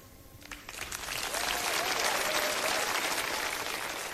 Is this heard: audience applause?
yes

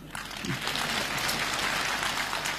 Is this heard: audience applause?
yes

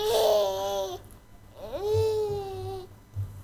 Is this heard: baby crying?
yes

